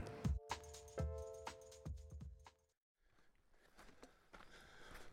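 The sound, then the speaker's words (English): Footsteps of a hiker walking a trail, a run of firm, uneven steps with a light metallic jingle of gear. The steps stop abruptly about halfway through, then give way to softer, quieter scuffing and rustling. “Please forgive me if I hike while I'm talking with you. I've got a lot of miles to cover.”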